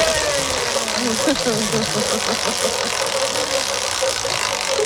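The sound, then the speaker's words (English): A quiz prize wheel spinning after a big spin, giving off a rapid run of ratcheting mechanical clicks that rattle on continuously, with a faint voice underneath. “let me spin the wheel for you. Do you want a big spin or a little spin? I'll have a big spin, please.”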